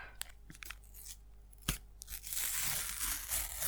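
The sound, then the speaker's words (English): Sticker packs being torn open: quiet crinkly tearing with a few sharp rips, then a longer stretch of steady crackling and rustling of the wrappers. “Let's open some stickers.”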